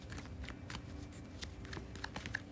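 Tarot cards are shuffled and handled, giving soft, irregular riffling taps and flicks in quick succession, faint and close to the noise floor.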